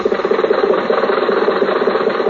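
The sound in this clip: Steady engine drone of a car driving to the horse races, used as an old-time radio sound effect, with a rapid low throb and even loudness throughout and no speech over it.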